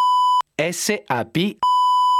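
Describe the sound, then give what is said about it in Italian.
Censorship beeps cover a company name: a loud, steady, flat-pitched tone sounds at the start and again at the end, with a voice talking in the gap between them. “Avrete sentito che noi abbiamo messo dei beep nel nome della società”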